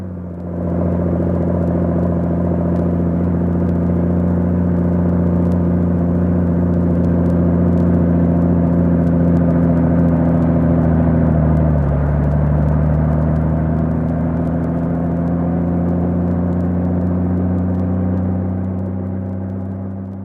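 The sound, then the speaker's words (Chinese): A propeller plane's motor drones as a low, steady, rumbling hum with strong tonal harmonics. Its pitch dips briefly partway through, then the hum continues evenly and fades slightly at the end. “这个时候，阿图正忙着对付螺旋桨，马达发出一连串的”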